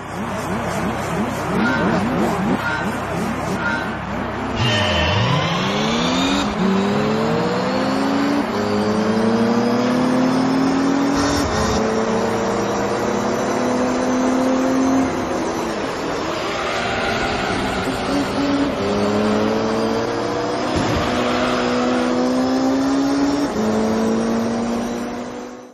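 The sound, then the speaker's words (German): Racing car engines roar continuously in a racing video game, revving up in repeated rising sweeps with sudden drops at gear changes. Tyre squeals and skids mix in throughout the loud clip. “Klingt halt wie ein Autorennspiel.”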